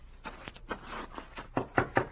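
Knocking on a door: a series of irregular hard raps, some grouped closely together and others spaced apart, moderately loud with no voices.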